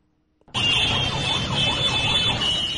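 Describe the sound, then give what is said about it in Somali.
Car horns blare from vehicles stuck in a traffic jam on a main road in Mogadishu, forming a loud, continuous wall of overlapping honks and engine noise that holds steady for nearly the whole clip, with no talking. “hoonka gaadiidka kala duwan ee aad maqlaysaan waa ciriiri ka taagan mid ka mida wadooyinka halbowlaha u ah isu socodka dadka iyo gawaarida Muqdisho”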